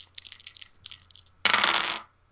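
Dice rolled during a tabletop role-playing game: a few light rattling clicks, then a louder half-second clatter as they tumble across the table before stopping.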